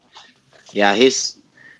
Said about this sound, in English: Oh, he's a good puppy. You're a good puppy.